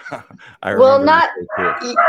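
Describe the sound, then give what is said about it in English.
Dogs barking and yipping, a rapid run of sharp, high barks and whiny yelps that rise and fall in pitch and fill the whole moment. “oh my god, the dogs, hang on, sorry Brandon, why don't you take over for a second?”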